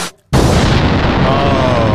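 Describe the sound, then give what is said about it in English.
A loud explosion from a lit fuse, set off to blow up music albums: a sudden, sharp blast right after a brief silence turns into a sustained, roaring burst of noise that lasts to the end. “Oh, maybe we'll get a double explosion.”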